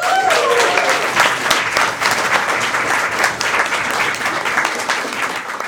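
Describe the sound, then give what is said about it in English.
Audience applause in a room for the technical crew, a dense, steady clatter of many hands clapping that holds loud from start to finish with no talk over it. “taking care of all of the technical requirements, a big round of applause at the back of the room for Will and Michael.”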